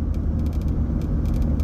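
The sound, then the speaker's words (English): Steady low road rumble from a car driving very early in the morning, a continuous dense drone with no clear breaks, heard alone without talk. “We're driving right now. It's very, very early in the morning on Friday.”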